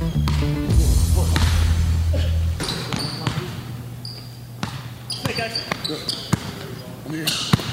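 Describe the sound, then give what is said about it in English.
A basketball is dribbled on a court during a workout, making many sharp, rhythmic bounces with some irregular gaps, while people talk throughout. “Tyrese begins to show off some dribbling and driving, and then shooting.”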